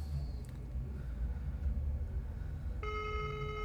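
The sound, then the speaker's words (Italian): A telephone ringing on a line, a faint, even electronic ring tone that starts late and carries on to the end over a low rumble. “Le linee sono intasate? Non credo. No, sta squillando.”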